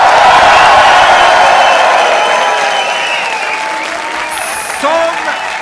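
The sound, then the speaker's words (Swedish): Applause and cheering from a live audience of about 350 people filling a Stockholm hotel venue: dense, sustained clapping and crowd noise that eases slightly over time, with a brief shrill whistle near the end. “Det är 350 personer i lokalen som låter så här.”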